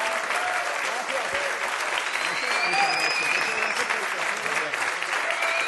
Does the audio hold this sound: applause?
yes